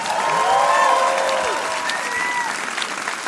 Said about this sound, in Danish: Giv en stor hånd til Mikkel Klint Torius!